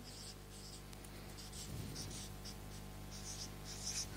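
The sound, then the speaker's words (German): Soft scratchy writing as a Bible verse reference is written up, a run of short, faint strokes with brief pauses between them and no voices. “Das schreibe ich mal hier oben hin, damit wir das nicht vergessen.”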